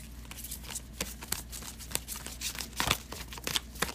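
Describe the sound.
Tarot cards being shuffled: a run of many soft, papery riffling crackles and flicks at a fairly quiet, uneven level, with no clear talk over them.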